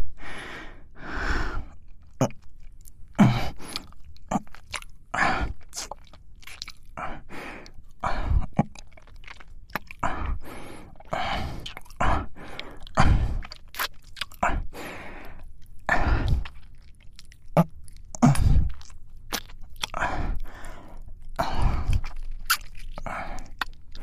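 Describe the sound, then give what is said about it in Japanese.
Wet chewing and nibbling mouth sounds from someone pretending to eat an earlobe. Many sharp, irregular clicks and smacks run continuously over soft breathy noise, loud and close, without clear speech. “こっちの耳たぶも美味しいな。”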